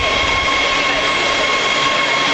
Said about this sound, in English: And the train is coming in on the other side. Oh, this side, never mind. Here it is.